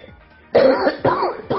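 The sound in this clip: A woman coughs three times, harsh and throaty. The first cough is the longest, and two shorter bursts follow at a steady pace after a quiet moment.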